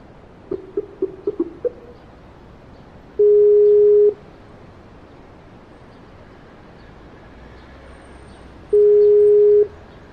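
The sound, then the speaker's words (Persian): Phone tones while calling someone: a quick run of short keypad beeps, then two steady mid-pitched tones of about a second each, separated by a long quiet gap. No talking. “به امیر رضا زنگ بزن ببین کجاست”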